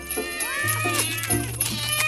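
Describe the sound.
Several cats meowing in quick, overlapping cries, some rising and falling in pitch, over a steady low hum that starts shortly after the first call.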